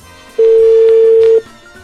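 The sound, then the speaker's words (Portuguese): A telephone call being placed, heard as one loud, steady, unbroken tone lasting about a second before it cuts off, with quiet background around it. “a gente vai ligar para ele agora.”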